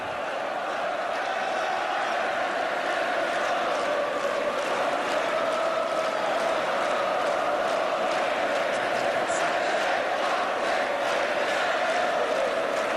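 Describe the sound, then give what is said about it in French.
A stadium crowd at a match roars without a break, a dense, steady wall of voices that holds at an even loudness for the whole stretch. “Public qui pousse encore.”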